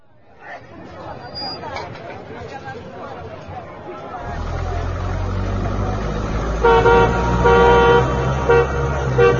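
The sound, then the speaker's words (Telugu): A car approaches and toots its horn: a low engine rumble swells in beneath crowd chatter, then a series of horn toots sounds near the end while the babble of voices carries on. “అదిగో car చప్పుడవుతోంది కూడా.”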